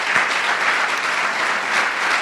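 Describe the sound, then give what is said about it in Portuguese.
A church audience gives a full round of applause in honour of Mary of Bethany, many hands clapping densely and loudly in a constant, unbroken roar. “Então, não seria pedir muito uma salva de palmas para essa mulher, Maria de Betânia.”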